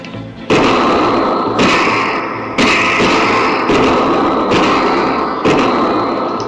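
Gunfire in a staged shootout: five heavy bursts, each trailing into a sustained noisy roar, loud throughout with no voices.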